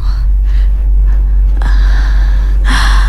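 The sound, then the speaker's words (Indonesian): Heavy, out-of-breath panting from a telephone caller: a few harsh, loud breath bursts with a hissing, distorted quality over a noisy line, heard alone without speech. “Ya Allah ngos-ngosan.”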